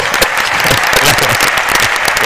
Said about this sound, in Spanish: Te han aplaudido porque el arroz es mejor que la paella, ¿no?